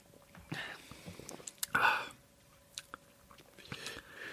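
Soft mouth and sipping sounds come from someone tasting Cordun London Dry Gin with River Tonic Water. There are a few brief, quiet slurps and smacks, with one louder burst in the middle, over a hushed background.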